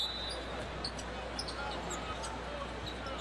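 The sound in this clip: A basketball is dribbled on the court during a Hawks at Raptors NBA game, with faint, steady repeated bounces over a constant arena crowd hum.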